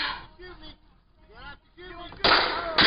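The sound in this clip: Gunshots during an armed standoff in Oregon: voices first, then two loud, harsh bursts close together that cut over the end.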